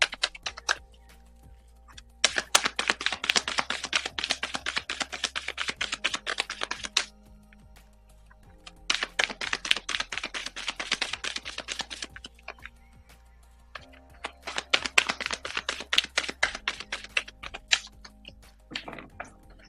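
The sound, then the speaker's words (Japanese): Cards being shuffled for a card reading produce several bursts of rapid, crisp clicking and fluttering, each lasting a few seconds and separated by short quiet pauses, fairly soft overall. “はい、それではカードシャッフルいたします。少々お待ちください。”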